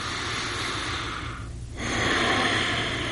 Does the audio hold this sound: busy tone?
no